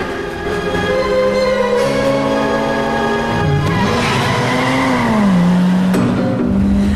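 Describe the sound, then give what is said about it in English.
A car screeching out of a car park at night and accelerating hard: a loud, continuous engine roar with tire squeal, its pitch wavering and climbing as it speeds up. “Screeching out of the car park, she speeds off into the night, switching off the headlights as she pushes harder on the accelerator.”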